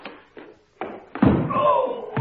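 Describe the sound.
Someone stumbles over a footstool left in front of a door, making a few dull, uneven thuds and knocks. A person's voice then exclaims over the last bumps.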